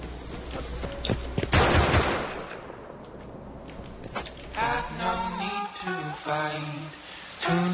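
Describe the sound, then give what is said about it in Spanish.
Gunfire from an enemy in a video game: a dense, loud volley of rapid shots in the first couple of seconds, then quieter stretches broken by further bursts and tonal game sounds. “Y te dice, oh mira, me están disparando. Un enemigo ahí me está disparando.”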